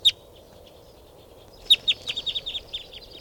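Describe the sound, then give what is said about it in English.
A mixed flock of birds calls, including a type 2 female with a young male: one sharp chirp, a pause, then a quick run of many sharp, high chirping calls. “With a young male. Stop. This is the calls of the flock.”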